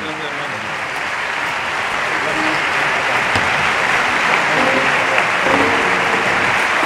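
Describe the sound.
Audience applause for the bolero group Los Panchos: sustained, dense clapping that grows slightly louder, with some voices mixed in beneath it.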